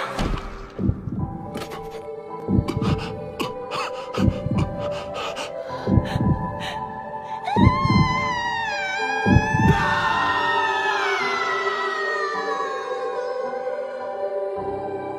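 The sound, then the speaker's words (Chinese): Queen Amaterasu's heart-rending, grief-stricken cry: a run of gasping sobs, then a long, wavering, high-pitched wail that holds to the end, loud and emotional. “有人在哭，你听到什么了吗？我听到了撕心裂肺的哭喊声，这么悲伤的声音是 天照女王陛下。”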